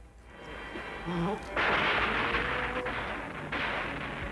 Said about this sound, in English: Random bombing should do the trick.